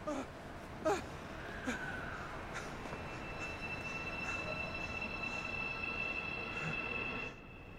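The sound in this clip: A metro train departs from a station with a continuous rolling rumble and a few clanks near the start. A thin, high squeal holds through the middle, then the rumble drops away at the end.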